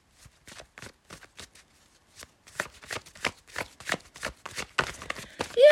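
Tarot cards being shuffled make many soft, quick riffling strikes in a steady rhythm, faint at first and growing louder and busier in the second half.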